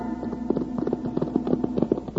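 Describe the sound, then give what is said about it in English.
Horses' hooves clip-clop as two riders come into a small cow town, with many quick, even hoofbeats in a steady trotting rhythm and no voices. “Wild Bill Hickok and Jingles rode into the little cow town of Danville looking for Sheriff Blake.”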